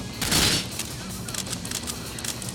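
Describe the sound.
Automated sentry gun firing in a video game: a loud burst of rapid gunfire near the start, followed by a continuing stream of sharp, quieter shots over steady background noise.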